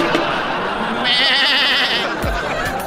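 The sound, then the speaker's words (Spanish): Sheep bleating: one wavering, quavering cry about a second long, heard over steady talking. “Cuando eres borrego, güey, pues que un borrego se fue por un lado y se fueron todos. Ahí va la borregada, ya sabes cómo es.”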